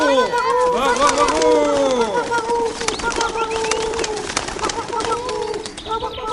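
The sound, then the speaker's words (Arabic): A flock of pigeons coos again and again. The soft, throaty calls overlap and bend downward in pitch, and they are loud and busy throughout. “وحلقت الحمامات وهي تحمل الشبكة بأقدامها. وقالت الحمامة الحكيمة: اتبعوني أيتها الحمامات، اتبعوني أيتها الحمامات.”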